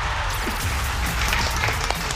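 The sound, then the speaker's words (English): Crowd applause for the fourth-placed family in a summer competition at Atlantis The Palm: a continuous patter of many hands clapping over a steady low hum, staying at an even level throughout. “Give them a round of applause. Well done.”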